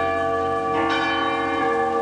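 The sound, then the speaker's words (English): Large bell rung at the opening of a new Washington, D.C. museum of African American history and culture, giving a loud, sustained ringing hum that is struck again partway through, with no talk over it. “The bell was rung by the nation's first African American president.”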